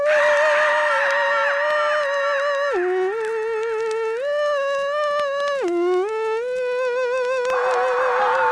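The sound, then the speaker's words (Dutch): High falsetto voice imitating a fiddle, holding a sustained, reedy bowed-string tone with wavering vibrato that drops and climbs in pitch several times over a long, unbroken phrase. “Gebruik voor de fiedel uw fijnste falsetstem.”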